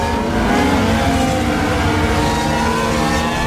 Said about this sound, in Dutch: Hulkenberg komt van P11, gaat nu de pits in en Magnussen als laatste.